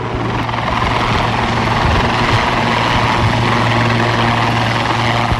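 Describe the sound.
Helicopter hovering and turning at a military base, a loud, steady rotor and engine roar that holds constant throughout with no talk.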